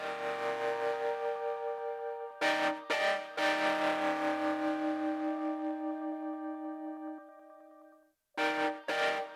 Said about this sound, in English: It was kind of boring, so I ended up making it more of a pad with a Valhalla plugin. That's what you hear now.